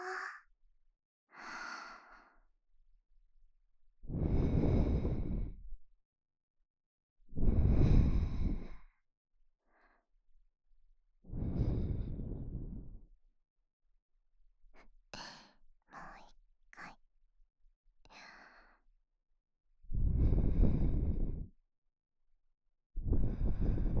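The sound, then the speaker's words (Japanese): Soft, breathy blowing puffs of air, meant to cool something down, come in several strong rushes with a few fainter breaths between them, alone with no talk. “それじゃ、ふうふうしますよ。”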